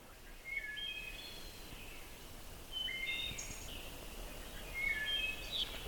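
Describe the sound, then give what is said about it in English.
A wood thrush singing its short phrase with no introductory note: three brief, fluty, high phrases, each a quick cluster of clear whistled notes, faint above a steady background hiss. “The wood thrush song doesn't have any preliminary note. He just does the little phrase. And that's characteristic of his song.”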